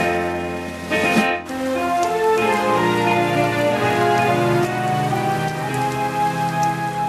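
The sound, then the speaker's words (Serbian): Steady rain falls, a continuous dense patter that holds an even level throughout, alongside sustained tonal sound and with no voices. “Toga dana padala je kiša celo prepodne.”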